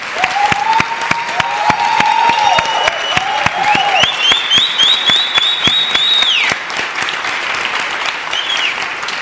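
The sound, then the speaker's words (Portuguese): Sustained applause from an audience standing to welcome a guest onto the stage at an institute launch event. The clapping is dense, loud and steady throughout. “eu queria que todo mundo ficasse de pé para aplaudir a dona Alvenice.”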